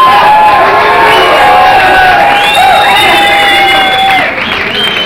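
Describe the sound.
A large crowd cheers and applauds in a loud, sustained roar, with shouts and whistle-like cries rising above it. The noise eases slightly near the end.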